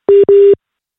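Busy tone after a dropped phone call: two steady, mid-pitched electronic beeps in quick succession, the second slightly longer, followed by silence.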